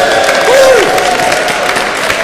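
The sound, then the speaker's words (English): Audience applause: a loud, dense, steady wash of many hands clapping throughout, with a single short whistle near the start. “Give Scott a round of applause.”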